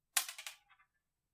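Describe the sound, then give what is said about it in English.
A coin being flipped: a quick run of six bright, clicking ticks within about half a second. The first is loudest and the rest trail off to silence. “So here goes the coin flip.”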